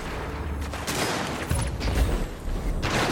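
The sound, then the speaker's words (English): Gunfire in the video game Destiny 2: a few faint, sharp bursts of shots over a dense, noisy rumble, with no clear single report standing out. “I missed all those shots because he just kept running away.”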